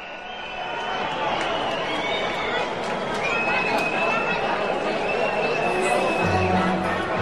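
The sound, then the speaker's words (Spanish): A football stadium crowd at El Alcoraz whistles at the referee at half-time: dense, continuous crowd noise with sustained high-pitched whistles cutting through, loud and unbroken throughout. “Pues vemos unos pitos que yo creo que van más dirigidos al árbitro que lógicamente a nuestro equipo.”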